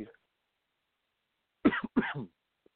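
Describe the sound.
Two quick, dry coughs from a sports radio host, short harsh bursts close together that stand out against an otherwise silent background, with a brief faint noise at the very start.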